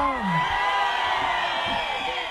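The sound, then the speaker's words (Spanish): A crowd shouting a Mexican grito: many overlapping voices cry out together in a loud, sustained, dense wall of sound that fills the whole clip. “¡aviéntense en un pinche grito! ¡Ay, se oyó chingón”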